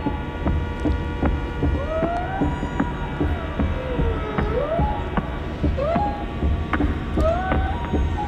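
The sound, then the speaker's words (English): Music mixing whale song with drums and strings: high gliding calls rise and fall over a steady low drone and a regular pattern of sharp drum hits. “So you've got these drums, you've got these strings, and then the whales get involved as well.”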